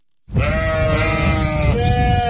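Sheep bleat loudly at a sheep-breeding fair, a shepherds' day gathering in Serbia. A drawn-out, strongly tonal bleat rings on for about two seconds with a nasal, wavering edge.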